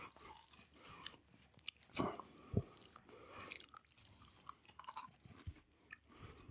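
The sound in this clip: Biting and chewing a chocolate hazelnut wafer: a crisp crunch of the bite, then many soft, irregular crunching and chewing sounds, all faint.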